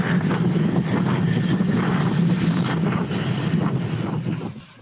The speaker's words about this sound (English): it sounds like the storm's happening.